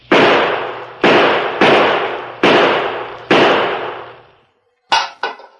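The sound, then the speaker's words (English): Five loud gunshots are fired at a tin can, evenly spaced, each with a ringing decay. After a brief silence come two shorter, sharper impacts. “Five bullets can put that tin can into the well.”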